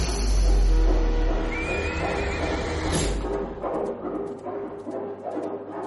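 A horse whinnies loudly and shrilly as its rider yanks the reins and charges toward a citadel. The rhythmic thudding that follows fits galloping hooves.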